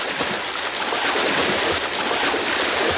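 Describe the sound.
Steady water splashing from a swimmer working through a lake overnight, a continuous dense wash of sound with no pauses and no voices.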